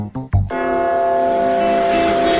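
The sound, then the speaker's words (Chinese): A large clock tower bell rings out in a loud, sustained chime, its rich layered tone holding steady and slowly fading after a few short sounds at the start. “大本钟的钟声记载着时间的流逝”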